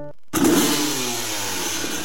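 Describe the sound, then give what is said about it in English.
A 250cc Kawasaki dirt bike engine cuts in after a brief silence with a loud rev, then settles into a steady, raspy buzzing drone. “It was a 250cc Kawasaki dirt bike sitting in the garage. Chrome handlebars, knobby tires, smelled like oil and freedom.”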